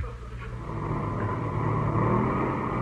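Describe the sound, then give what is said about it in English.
The motors of a passenger airliner run in flight, giving a steady, droning rumble that thickens slightly and grows a little louder toward the end. No voices are heard over the engine noise. “Motors sound okay.”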